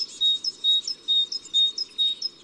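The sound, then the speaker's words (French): A great tit sings, repeating a rhythmic motif of high, clear two-note phrases several times at an even pace, bright and piercing over a faint background hiss. “Après la bleue, la mésange charbonnière.”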